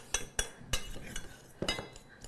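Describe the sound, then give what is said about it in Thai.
Utensils clink and scrape in a bowl as bibimbap with gochujang, pork, kimchi, sesame oil and fried egg is mixed before serving, a few sharp taps over soft stirring, fairly faint. “มาคลุกเคล้าส่วนผสมให้เข้ากันเลยค่ะก่อนการเสิร์ฟนะแค่นี้เองค่ะเราจะคลุกเคล้าจนกระทั่งเรามั่นใจว่าตัวน้ําตัวเกลือค่ะเขาเริ่มละลายแล้วนะเข้ากันแล้วนะคะ”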